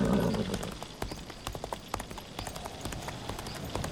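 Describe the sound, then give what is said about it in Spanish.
A horse bolts and runs wildly as a storm begins. Fast, many-beat hoofbeats drum steadily on the ground and stay fairly loud throughout, with no voices. “El caballo mordió el freno y corrió como enloquecido.”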